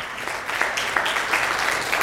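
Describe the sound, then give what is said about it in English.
Applause from a church audience clapping for God, a continuous, fairly even patter of many hands with a few louder individual claps. “So please, yes, let's clap for God.”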